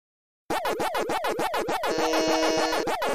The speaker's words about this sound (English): Well, that's the Pac-Man sound. That's the Pac-Man sound.